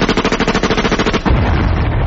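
Gunfire from a shooting outing aimed at butterflies: a loud, rapid string of many sharp cracks over about a second, then a dense, rumbling rush of noise that carries on to the end.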